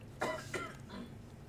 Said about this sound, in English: Excuse that cough.